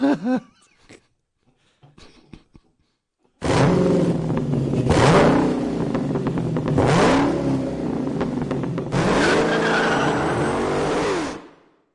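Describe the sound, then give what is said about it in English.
A custom-built car's engine gives a jet-like hum. After a few faint, brief sounds, a loud sustained roar starts, its pitch climbing and dropping several times as it revs. “It's got that little almost sort of a jet engine hum in it, the way that Kit and Knight Rider did”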